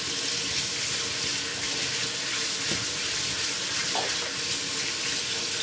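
Water runs from a tap into a sink while rice is being washed: a steady, even hiss of flowing water that lasts the whole clip with no talk.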